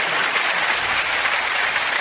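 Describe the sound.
An audience clapping steadily at a religious gathering honouring Imam Hasan: dense, even applause of many hands that holds a constant level throughout, with no breaks.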